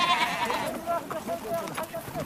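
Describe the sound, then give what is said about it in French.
Bleating from a noisy herd of about 300 goats, sheep and ibex as Kyrgyz men, women and children sort them into a pen, a dense, continuous overlap of calls at a steady, fairly loud level. “hommes, femmes et enfants kirghiz trient les bêtes, moutons, bouquetins, chèvres, près de 300 têtes bruyantes.”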